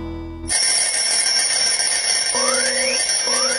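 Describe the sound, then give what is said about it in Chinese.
Alarm clock ringing with a loud, bright, continuous metallic jangle that starts abruptly and keeps going. A couple of brief rising tones appear toward the end. “关上了闹钟”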